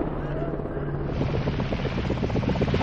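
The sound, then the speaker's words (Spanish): Rotor chop from two helicopters approaching and landing in a war zone: a low rumble turns into a loud, rapid, rhythmic thumping after about a second and holds at that volume to the end. “Dos helicópteros se acercan. El cámara hace señales. Aterrizan.”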